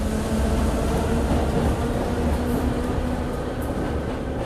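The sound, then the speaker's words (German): Continuous rumbling train ride, used as a sound effect in a radio play: a dense, steady low roar of rolling rail noise that holds at a constant level with no voices. “Willkommen im Internationalzug T23. Wir fahren, Sie entscheiden über Ihr Ziel.”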